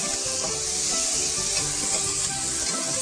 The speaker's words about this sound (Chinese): 啊，可以帮助呢洋葱呢尽量尽快的炒软。